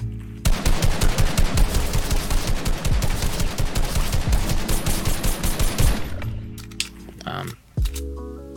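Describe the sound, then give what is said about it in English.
Rapid automatic gunfire from the video game Fortnite, update 12.61, rattles in dense, loud bursts for about six seconds, then drops to quieter game sounds with a few scattered thuds. “Doesn't feel any different. Guns sound a little bit different, maybe?”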